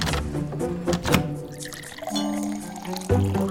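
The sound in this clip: Water poured into a glass, a gurgling stream with a few soft thunks and tonal splashing that shifts in pitch as it goes, fairly quiet overall.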